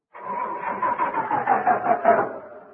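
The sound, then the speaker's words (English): A car engine cranks repeatedly without catching, a steady rhythmic pulsing whir from a car whose battery is running down after long attempts to start it, fairly loud and even throughout. “Now, will you get behind the wheel and try to start it?”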